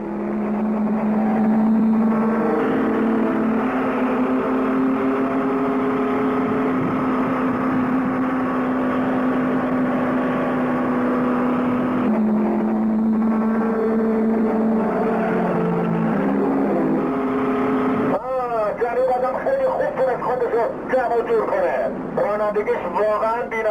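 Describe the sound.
Racing car engine drone while overtaking rivals: a loud, steady harmonic roar whose pitch shifts up and down, with a voice talking over it throughout.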